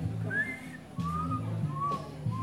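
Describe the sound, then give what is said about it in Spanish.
A man whistles an imitation of the perico ligero bird's call: three thin, fairly quiet whistled notes, each a short sliding tone, over a steady low hum. “Es el perico ligero de pluma que llama. ¿Puede hacer el canto otra vez, por favor? El silba.”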